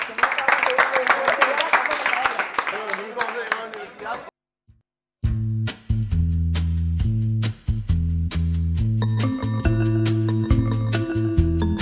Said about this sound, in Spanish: Un aplauso.